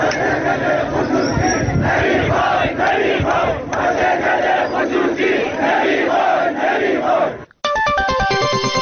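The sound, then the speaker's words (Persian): Factory workers protesting the privatisation of their company, chanting together in loud, rhythmic slogans; after a brief gap at the end, a short run of electronic melodic tones plays. “سایت باشگاه خبرنگاران جوان نیز در این مورد فیلمی از اعتراض کارگران این شرکت به خصوصی سازی این واحد تولیدی را پخش کرد که بخشی از آن را می‌شنوید.”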